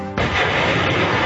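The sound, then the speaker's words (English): A truck-mounted high-mobility artillery rocket system fired by U.S. Marines during practice near the foothills of Mount Fuji in Japan: one sudden, loud blast that opens into a sustained, roaring rush of rocket noise lasting to the end. “That is the sound of U.S. Marines practicing firing a mobile rocket system days ago near the foothills of Mount Fuji in Japan. The high-mobility artillery rocket system, which is mounted on a military truck,”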